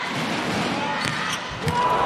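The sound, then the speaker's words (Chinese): A serve is struck in a U20 match against the Australian team: brief, sharp hits over steady, loud arena crowd noise. “高桥兰继续发球，”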